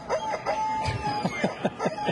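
Shrill squawks from a screaming rubber chicken toy come in a quick series of short, honking cries at a fairly steady rhythm, each one a brief nasal shriek.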